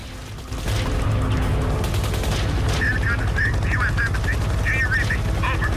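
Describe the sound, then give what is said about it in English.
Bombardment of an embassy in a radio drama: heavy gunfire and machine-gun bursts erupt after a brief quieter opening, then continue as a loud, dense, unbroken rattle. “As the bombardment continues, two American helicopter gunships suddenly appear in the black sky over the building's roof.”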